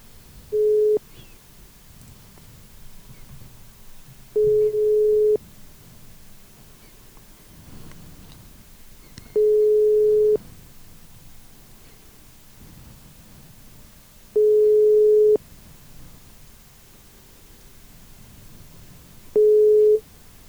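Ringback tone of an unanswered telephone call: five steady mid-pitched beeps, each about a second long, spaced by gaps of roughly four seconds over faint background hiss.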